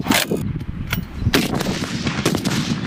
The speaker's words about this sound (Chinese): 在随后展开的狙击专业实弹考核中，官兵需要先完成高强度体能项目，然后立即进行射击。